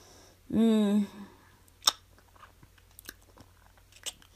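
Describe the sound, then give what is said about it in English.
Chewing at a meal: after a brief voiced sound, a single crisp bite stands out, followed by a few faint, scattered mouth clicks and chews. “I'll start eating now. Thank you so much for this meal.”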